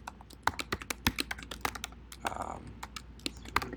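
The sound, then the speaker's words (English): Rapid, irregular keystrokes on a computer keyboard while code is typed during a programming demo: many sharp clicks with uneven gaps and a few louder taps. “Yeah, I haven't typed in years, so this is tough.”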